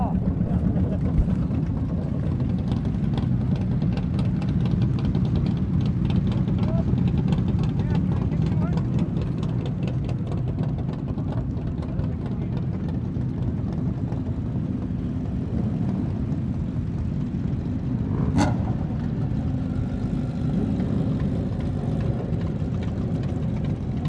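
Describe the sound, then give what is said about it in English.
Motorbike engines give a steady, continuous drone with a strong low rumble, holding an even loudness throughout, with a brief sharp click late on. “Audio recordings of the bikes.”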